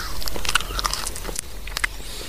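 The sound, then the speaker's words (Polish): Someone chews a whole common beech leaf, stalk included, an older leaf with a somewhat tough texture, producing many small, crisp crackles and crunches at a soft level. “Proszę Państwa, jem liść buka pospolitego.”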